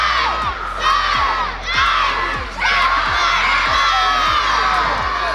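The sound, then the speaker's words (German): Over a thousand children shout and shriek at a chess event on a market square while waiting to play, a dense, high, continuous din that swells in waves of cheering. “Und wenn über 1000 Kinder nur darauf warten, endlich spielen zu dürfen, dann klingt das so.”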